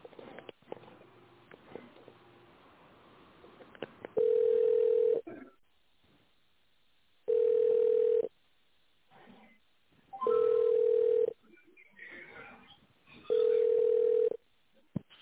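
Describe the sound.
Telephone ringback tones on a line while a call is being transferred: four long, steady mid-pitched beeps, evenly spaced about three seconds apart, with faint line noise in the gaps between them.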